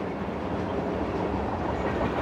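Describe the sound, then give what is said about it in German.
A train moving through a station: a continuous, dense rumble of rolling wheels and rattling carriages that holds at an even, fairly loud level throughout. “Gabriel starrt zu dem anfahrenden Zug.”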